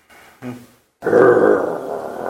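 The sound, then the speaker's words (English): A human voice imitates a dog snarling with a rough, throaty growl that is sustained and fairly loud, preceded by two short, quieter vocal bursts. “when you reach out to touch him, the dog snarls.”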